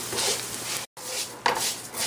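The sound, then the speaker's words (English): Rice frying in a pan as it is stirred and browned, a steady sizzling hiss with scraping, rustling stirs and light clinks of the utensil against the pan. “So we're still gonna keep on frying this rice, and I'm gonna keep on moving it, and then I'll show you when it gets to the right color.”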